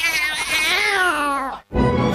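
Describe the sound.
A cat on the street lets out a single long, loud meow. Its pitch sags slightly as it draws out, then cuts off into a brief silence before a burst of rough noise.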